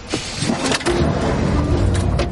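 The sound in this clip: A car pulls away after the driver sets off decisively: an engine rumbles and revs at a moderate pitch, with steady road noise following.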